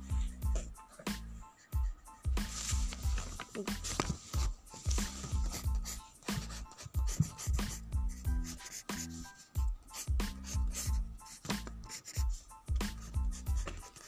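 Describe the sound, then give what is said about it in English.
A pencil makes scratchy, rubbing strokes while sketching a cityscape drawing by hand. The strokes come in many short, rhythmic bursts, some quick and some drawn out, and stay fairly soft throughout. “So I'm just making a quick sketch”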